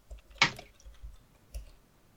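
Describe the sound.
Button-press clicks in a video game as a dial is turned and a button pressed to work a lock: a few faint, short clicks over soft low thumps, the first click the sharpest.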